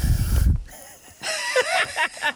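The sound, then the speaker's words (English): A soft exhale through the nose into an ear gives a short, breathy, rumbling puff of air, followed by a brief voiced sound. “Breathe through your nose and exhale softly into their ear, like this.”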